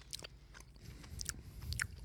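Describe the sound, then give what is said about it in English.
Skittles candies being chewed with faint, close crunching and a few sharper bites over steady wet mouth noise. No one talks. “Not only are we eating Skittles, but it could go on like this forever.”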